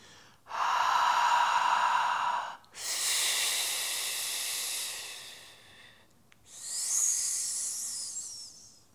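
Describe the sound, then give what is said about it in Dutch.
Three long exhalations in a breathing exercise, blown out fully as the letters H, F and S: first a breathy hush, then a broader rushing blow, then a high, sharp hiss, each separated by a short pause, with no talk. “Het is de H, de F en de S. Ik doe hem één keer voor en haak maar gewoon in, want je kan het. Als je elke letter maar helemaal leeg blaast.”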